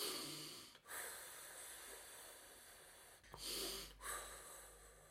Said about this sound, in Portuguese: Vamos respirar, Vamos.